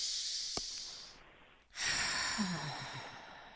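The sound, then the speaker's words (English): A deep breath in and out during a guided meditation exercise: a long, airy inhale, a brief silent pause, then a louder, fuller exhale that slowly fades, with no talking. “let's take a nice deep breath again”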